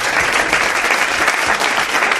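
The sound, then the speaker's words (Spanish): Audience applause at a book fair event in Madrid's Retiro park: loud, dense clapping that holds steady and unbroken for about two seconds. “Pido un aplauso para ella”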